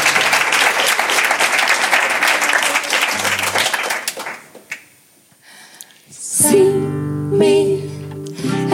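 Audience applause for a band at a live concert, loud and continuous crowd clapping for about four seconds, then fading to near silence before the band's music starts.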